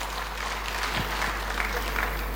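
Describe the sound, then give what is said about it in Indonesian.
Applause from a church audience, dense and steady clapping that holds at an even level throughout, with a low hum running beneath it. “Tepuk tangan bagi Allah kita.”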